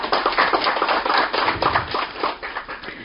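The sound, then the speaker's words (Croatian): Audience applause greets the guest speakers at a literary evening with Montenegro's writers' association and the journal Stvaranje: dense, continuous clapping that stays fairly loud throughout and eases slightly near the end. “Hvala svima što ste došli. Pozdravite moje goste jednim aplauzom.”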